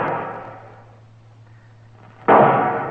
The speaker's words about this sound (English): What's he shooting at now? Mr. Dillon, the way he's facing them shots. Yeah, that's a signal for help, Chester.